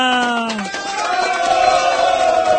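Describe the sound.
Loud crowd cheering and shouting fills the whole stretch, sustained and dense with overlapping voices, opening with one raised voice that drops in pitch before the crowd noise takes over.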